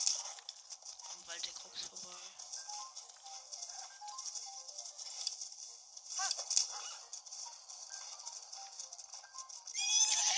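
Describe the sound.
Galloping hoofbeats of a horse ridden off-road across a hillside in a fantasy video game, a soft, rapid patter under a steady, bright hiss of game ambience that swells briefly near the end.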